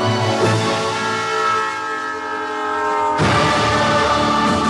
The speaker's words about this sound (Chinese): 一列精准扶贫的公益列车。